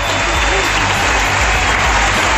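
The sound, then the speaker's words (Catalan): Stadium ovation from Barça supporters for footballer Alexia Putellas after her last match at the Johan Cruyff ground: a dense, steady wash of clapping and crowd noise, loud and unbroken for the whole stretch. “5.428 culers van brindar Alexia a l'última ovació.”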